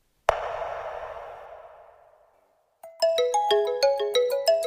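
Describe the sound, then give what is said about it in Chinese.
A telephone ringing: a single bright chime rings out and slowly fades. A rapid electronic ringtone melody of clear, high, evenly repeating notes then starts up loudly. “电话响起”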